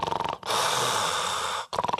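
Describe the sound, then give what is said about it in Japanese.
A voice imitates loud snoring, the kind of heavy snoring that comes with sleep apnea: one long rasping, breathy snore lasting about a second, with talk just before and after it. “私真似が上手なんですが、こういびきをかいています。”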